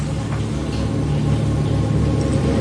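A car engine rumbles steadily as the vehicle is driven along a forest road at night, a low, even drone with no pauses throughout.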